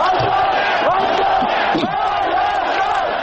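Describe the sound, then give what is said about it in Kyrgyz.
A crowd at parliament on Baghramyan Avenue shouts "Free independent Armenia", loud massed voices yelling together without a break. “Эркин көз карандысыз Армения деп кыйкырып турушту.”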